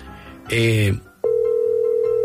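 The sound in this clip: A telephone dial tone sounds after a call is cut off. A short, harsh burst of noise comes first, then a loud, steady, unbroken hum holds from just past the midpoint to the end.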